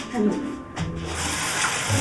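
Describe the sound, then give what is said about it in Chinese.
Tap water runs steadily while a dirty rag is rinsed under it, a continuous hissing rush with voices talking over it. “哎呀，我让你洗手，你怎么洗上抹布了？ 这抹布有点脏，我给他投一下。”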